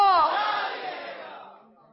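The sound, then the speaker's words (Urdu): A crowd at an Islamic religious gathering shouts a devotional slogan in unison in response to a call. One loud, drawn-out chorus of voices opens strongly and then slowly trails away over two seconds. “نعرہ لگائیں, فیضان اعلی حضرت, فیض رضا,”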